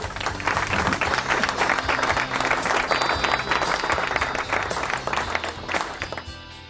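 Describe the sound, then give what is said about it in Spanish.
Applause at the close of an interview: dense, steady clapping from a group that continues for about seven seconds, then tapers slightly near the end. “¿Hay aplausos?”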